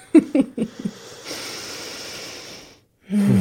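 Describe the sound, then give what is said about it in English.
A deep breath is drawn as a long, soft, breathy rush lasting over a second. It comes after a few short bursts of sound, and a voice starts right at the end. “let's take another deep breath together.”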